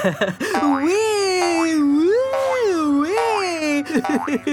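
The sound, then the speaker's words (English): Cartoon boing effects of bouncing in a bouncy house of mirrors, a loud springy tone whose pitch wobbles up and down again and again, with brief voice sounds at the start and end. “I love bouncing around this bouncy house.”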